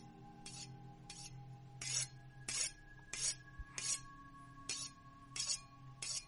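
A knife is sharpened with a steady series of rasping strokes, each a short gritty scrape at an even rhythm, over a faint low hum.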